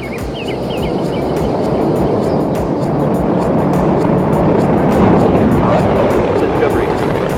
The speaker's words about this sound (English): And liftoff of Space Shuttle Discovery, beginning America's new journey to the moon, Mars, and beyond. And the vehicle has cleared the tower.